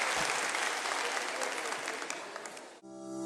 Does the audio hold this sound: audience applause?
yes